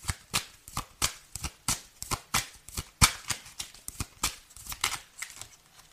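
Tarot cards being shuffled give many crisp, papery riffles and snaps in a quick, fairly steady rhythm, with no voices heard.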